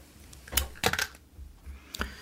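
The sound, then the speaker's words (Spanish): A cassette tape from 1997 is handled, giving a few sharp plastic clicks and rattles separated by quiet pauses. “Esta cinta que tengo entre las manos es del año 1997.”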